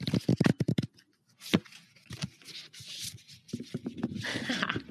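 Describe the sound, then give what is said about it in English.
ASMR-style opening of a box: a cluster of crisp taps and crinkles, a short pause, then soft rustling and scraping of cardboard and packaging at close, quiet level. “ASMR opening the box.”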